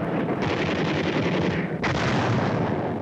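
A heavy artillery barrage with gunfire makes a dense, continuous roar. The sound stays loud and steady throughout, with no clearly separate shots.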